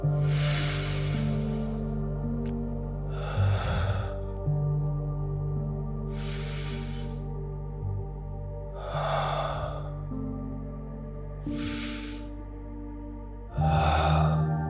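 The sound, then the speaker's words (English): Slow, deep meditative breathing is heard as a series of long, airy breaths spaced evenly apart. The breaths sit over a soft, sustained droning musical backdrop, with no talking. “We're going to do a few more breath cycles”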